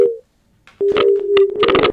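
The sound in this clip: A telephone busy tone after a call is cut off. A short low steady beep is followed by a pause, then a longer sustained beep.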